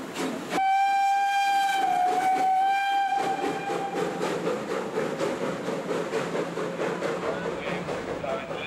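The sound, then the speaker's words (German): A Polish 1949 express steam locomotive running tender first at a locomotive parade. A loud, steady steam whistle blows for a few seconds and dips slightly in pitch. Then comes a continuous rumbling, clattering roll of the train. “Und zum Schluss, Tender voraus, die polnische Schnellzuglok PT4765 von 1949.”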